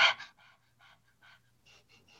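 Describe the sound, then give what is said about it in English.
Rhythmic breathing exercise: a person pants like a dog and then keeps the same rhythm with the mouth closed. One loud opening breath is followed by many quick, softer breath bursts at a steady pace. “The best way to practice it is you pant like a dog, and then you close your mouth and you would continue that same rhythm.”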